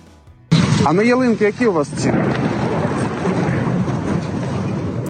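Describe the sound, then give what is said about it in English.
A Russian missile strike on Kyiv bursts in suddenly with a loud, broad blast, then settles into a long, heavy rumble; a wavering tonal wail rides over the noise for the first second or so. “In the nation's capital of Kyiv, Ukrainians were going about their day when the blasts began.”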